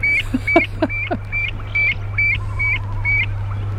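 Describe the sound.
Calls of a wild bird, a species in which the female is larger than the male: a long run of repeated short, high, piping notes in a regular rhythm over a steady low hum.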